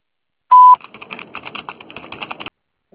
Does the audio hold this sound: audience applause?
no